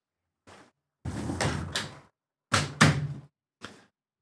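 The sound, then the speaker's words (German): Window being closed: a short rattle, then a longer scraping slide, followed by heavier bumps and a last brief clack as it shuts, with silence between the sounds and no talk. “Ich muss das Fenster zumachen”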